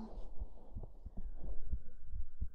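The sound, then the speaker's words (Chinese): Heartbeat in a quick, steady rhythm of soft, low thumps over a faint continuous hum, with no voices. “主人的心跳是不是跳得很快啊？仔细听哦。”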